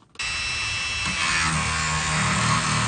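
A power tool whines as a Yukon paleontologist cuts into 30,000-year-old bone. After a brief quiet start it kicks in abruptly and holds a steady, buzzing drone that grows slightly louder partway through.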